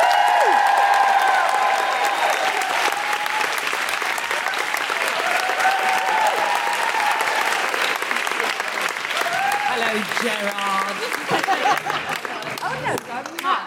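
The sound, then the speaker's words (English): Loud, sustained audience applause and cheering as a guest comedian is welcomed to a live show, steady dense clapping with scattered whoops and whistles, easing slightly toward the end. “Put your hands together and make extraordinary noises for the wonderful Jenny Eclair.”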